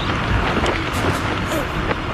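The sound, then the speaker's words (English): Strong wind roars in a dense, continuous rumble across a field during a parachute jump, with a voice partly audible through the noise. “There's too much wind. Get medics down there fast.”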